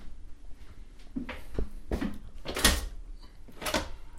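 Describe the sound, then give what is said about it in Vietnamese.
A door being opened in a century-old hotel: a few sharp knocks, rattles and thuds spaced unevenly, with a louder bang midway and another near the end. “Mở cái cửa đó ra là có gì không?”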